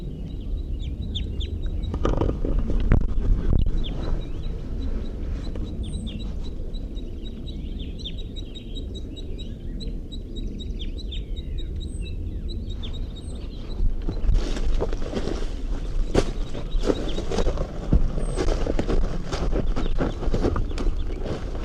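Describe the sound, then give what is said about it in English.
Crossbills calling: a female gives pegging calls and a male gives flight calls, heard as many short, high, sharp chirps repeated in loose runs over a constant background hiss. “crossbills come to the scene. Pegging calls by the female and flight calls by the male.”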